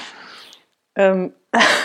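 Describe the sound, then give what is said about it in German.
A person coughs in short, harsh, noisy bursts, with a brief voiced sound between them, all within under two seconds. “Ich entschuldige mich für zwischendrin Husten.”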